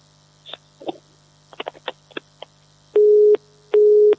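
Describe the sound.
Telephone busy tone after a dropped call: a few faint clicks and crackles over a low steady hum, then two long, loud, steady tone bursts with a short gap between them.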